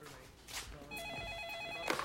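A telephone rings at a police detectives' station, one steady electronic trill lasting about a second over a low background murmur.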